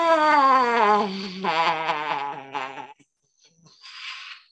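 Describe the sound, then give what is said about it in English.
A deep exhale carries a long voiced 'ah' in a calming breathing exercise, the tone sliding slightly lower and wavering before fading, then a brief breathy hiss follows after a short pause. “Inhale, and then exhale, and with a vocalization.”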